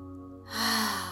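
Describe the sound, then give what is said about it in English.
A deep inhale through the nose during a meditation exercise: one soft, airy breath that swells in the second half and then eases, heard over a quiet sustained drone. “So inhaling through the nose,”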